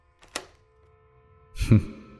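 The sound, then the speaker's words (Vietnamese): A door being locked with a click: a faint short tap, then after a pause a louder, heavier thunk of the lock, with no voices. “kèm theo đó là một tiếng khóa cửa, cạch một cái.”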